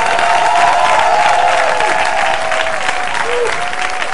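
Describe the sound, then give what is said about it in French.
An audience at a Christian gathering applauds and cheers for the young people, with dense, steady clapping that stays loud throughout and a few tonal calls riding above it. “Est-ce qu'on peut acclamer nos jeunes, s'il vous plaît?”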